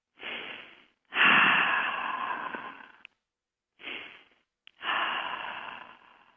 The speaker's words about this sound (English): And then we're going to take a couple of deep breaths.